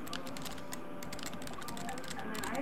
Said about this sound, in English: I have to type it again.